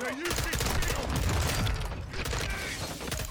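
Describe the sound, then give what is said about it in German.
Pistol gunfire in a video game, with rapid overlapping cracks and bangs over a dense, steady wash of game noise. “Und jetzt muss ich sie da beschießen. Ich habe erstmal nur eine Pistole”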